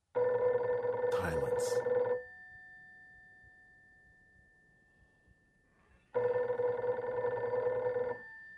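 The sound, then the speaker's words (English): A heavy black rotary dial telephone rings with a loud, harsh mechanical bell in two long bursts separated by a few seconds of quiet, with a brief voice over the first. “you should probably answer the phone. What's that ringing?”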